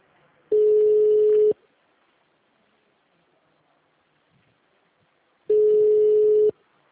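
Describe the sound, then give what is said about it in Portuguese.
A phone calling out gives two identical long, low ringing tones, each lasting about a second and separated by several seconds of near silence. “Tô ligando aí.”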